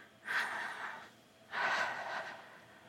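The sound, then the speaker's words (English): Deep breaths taken together by a group during a prayer: two long, soft, airy breaths separated by a short pause. “let us all take a deep breath.”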